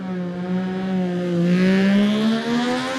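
A Triumph racing motorcycle accelerating away from the start of a road race, its loud engine roar holding a strong harmonic tone whose pitch climbs steadily as it pulls off.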